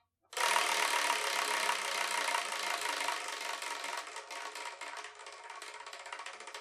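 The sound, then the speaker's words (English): A number wheel is spun, giving a rapid, rattling run of clicks that starts loud and abrupt. The ticks gradually thin out, slow and soften as the wheel loses speed. “and when I spin it, whatever number it lands on, the manga that's in that spot is the one I'm going to review in the next episode of the Spiraken Manga Review, episode 536.”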